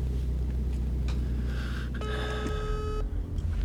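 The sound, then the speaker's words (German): An outgoing phone call rings on the line: one electronic ring tone with bright, layered harmonics, lasting about a second over a low background hum, with no voices. “Oberkommissar Lento wird angerufen. Okay, komm schon. Geh ran, geh ran.”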